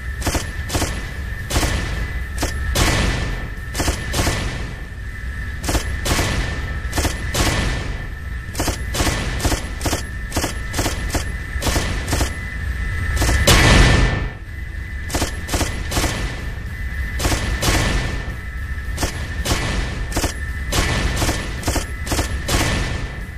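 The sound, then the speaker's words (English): Video game gunfire shooting down incoming rockets: many rapid, sharp bursts repeating throughout at a loud, steady level, with one heavier blast standing out midway. “I'm gonna see if I can shoot down a bunch of rockets.”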